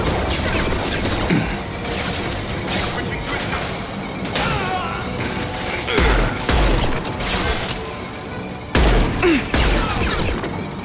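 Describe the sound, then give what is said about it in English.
Gunfire in a video game: a few sharp, loud bursts punch through a dense, busy bed of mechanical game sounds. “What's happening? Who's shooting at me?”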